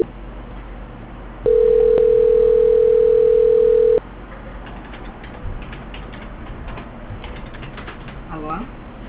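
A telephone call-transfer tone: a single steady pitched beep held for about two and a half seconds over thin phone-line hiss, then faint background noise on the line.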